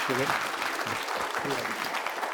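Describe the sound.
An audience claps in a steady, dense patter that lasts the whole clip, with a couple of brief voices cutting in over the applause.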